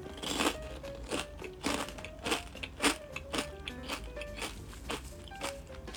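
Crunching of lightly salted potato chips being bitten and chewed: many crisp, irregular crunches in quick succession, with no talk.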